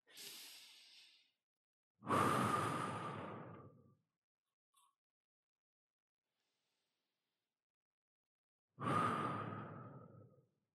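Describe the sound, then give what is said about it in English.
Slow, deep breaths are drawn one at a time, three in all. The first is softer and the next two are long and loud and airy, like sighs, with long silent gaps between them. “we're going to take a second. We're going to take a few breaths.”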